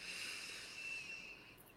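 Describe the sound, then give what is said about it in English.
A long, steady inhale drawn through the airway during a guided breathing exercise, airy and hissing and of nearly even loudness, with no talk over it. “Inhale and exhale.”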